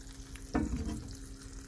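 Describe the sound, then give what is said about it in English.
Bread toasts in melted butter in a frying pan after the heat is turned down, giving a quiet, steady sizzle and crackle with one brief louder burst early on; no one speaks. “So we're toasting the bread with the butter in the pan. And there we go. You can just about hear it.”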